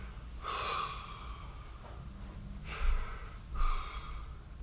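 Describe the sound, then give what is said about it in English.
A person demonstrates slow, calm breathing: a few airy, breathy exhalations and inhalations separated by quiet pauses, with no talk. “What we want is a breath that's like,”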